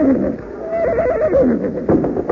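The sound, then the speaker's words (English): A horse whinnies in a loud, drawn-out neigh with a shaky, wavering pitch, set over a busy, rough background noise. “Oh, there, horses.”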